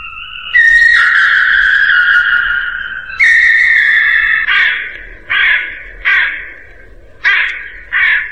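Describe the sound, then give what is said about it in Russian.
Crow cawing above a house roof: two long, harsh, drawn-out caws followed by five shorter, clipped caws in an uneven rhythm, loud and alone with no talk. “Кто это картавит над крышею дома? Ворона. Ее не узнать невозможно.”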